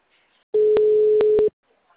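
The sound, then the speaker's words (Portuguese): Ringback tone on a phone line while a call is being placed: one steady mid-pitched tone lasting about a second, with a few clicks over it. “Eu vou tentar um aqui, peraí, que tá ligando aqui.”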